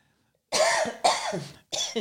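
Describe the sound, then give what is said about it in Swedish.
A short coughing fit: three harsh, raspy coughs in quick succession, loud and on their own, with no talk. “jag fick en liten hostanfall där”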